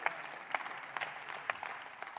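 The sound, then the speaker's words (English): A church audience claps at a Wednesday night service. The applause is faint and steady, a dense patter of many hands with a few louder claps standing out. “Give yourself an applause because you're here on Wednesday night.”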